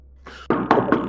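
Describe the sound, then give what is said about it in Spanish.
Knocking on a door at the top of a staircase: a few sharp, solid raps in quick succession, the first one fainter and the rest louder, with no voices. “hay que subir la escalera y golpear la puerta. Subo a la escalera y golpeo.”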